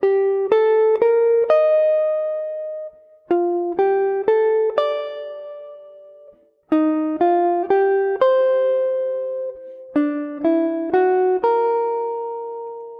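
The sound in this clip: A jazz standard melody played stiffly, as if read from sheet music: four short phrases of evenly spaced, clipped notes, each ending on a longer held note, separated by brief pauses, with mechanical timing and no voices.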